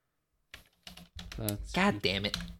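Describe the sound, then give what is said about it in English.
A few sharp keystrokes on a computer keyboard, with a voice talking over the later typing. “Can you tell me how to type Lycurgus quick? Oh my god. No, I'll look it up myself.”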